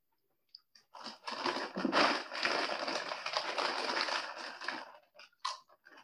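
Someone bites into a ridged, lightly salted potato chip: a few crisp snaps open into a run of dense, crackling chewing, which thins to scattered crunches toward the end.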